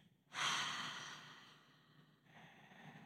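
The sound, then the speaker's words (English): A single deep breath drawn in and let out slowly, taken down into the lower belly. It is a soft, airy rush that swells quickly, fades over about two seconds, and ends in a faint, quieter exhale, with no talk. “take a deep breath into that area and let it go.”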